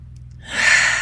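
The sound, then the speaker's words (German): A deep breath drawn in through the mouth or nose. It begins as near silence, then swells into a steady airy rush that holds through the second half. No one speaks. “Atme tief ein”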